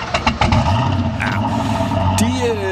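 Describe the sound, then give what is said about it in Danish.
Engine revving of a Zenvo sports car from Præstø, opening with a few sharp bursts before settling into a loud, steady throaty roar, with a voice coming in near the end. “Du kender Zenvo? Nå, den der sportsbil fra Præstø. Ja, du ved den, der lyder sådan her.”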